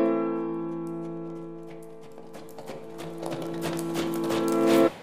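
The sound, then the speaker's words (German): Horse hooves clatter as a cavalry guard rides behind the French emperor through the Brandenburg Gate. Many hoofbeats beat over sustained musical tones and swell louder toward the end. “reitet der französische Kaiser an der Spitze seiner Garde durch das Brandenburger Tor.”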